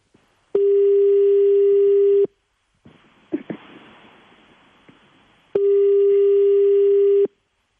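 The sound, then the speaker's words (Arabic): Ringback tone on an outgoing phone call: two long, steady single-pitched rings, each about two seconds, with faint line noise and a few clicks between them. “إذا الرقم يرن.”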